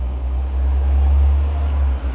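A bus passing outside the room gives a steady, deep engine rumble that swells gently, then dips briefly near the end.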